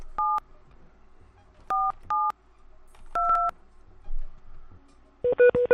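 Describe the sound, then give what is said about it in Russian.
Telephone keypad DTMF tones as a phone number is dialed: a few separate steady two-tone beeps spaced irregularly, one held longer, then a quick cluster of shorter beeps at the end, with no talking. “Давайте психушку позвоним.”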